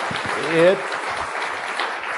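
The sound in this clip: Audience applause welcoming a guest onto a show, a steady wash of clapping that runs throughout, with a voice briefly heard over it.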